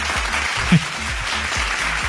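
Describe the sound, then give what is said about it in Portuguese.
A burst of applause: dense, continuous clapping that stays at a fairly even level throughout, with one brief louder spot near the middle. “Que esses aplausos?”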